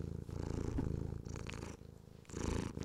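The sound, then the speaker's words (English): A female cat purring softly: a faint, low, rhythmic rattling purr that swells and fades over several breath cycles, alone with no voices. “You can hear her purring right now, I think, but I'm trying to get her to meow.”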